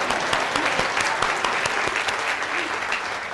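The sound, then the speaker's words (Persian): An audience applauds during a lecture on marriage and love. The clapping is dense and steady throughout, with no voices standing out above it. “برایش دست بزنید”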